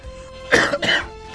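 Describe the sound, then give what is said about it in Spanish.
Two short, harsh coughs or throat-clearing bursts from a person in a smoke-filled studio, one right after the other, loud over a faint steady hum. “Y tenemos ganas de toser y esas cosas porque tiene mucho humo.”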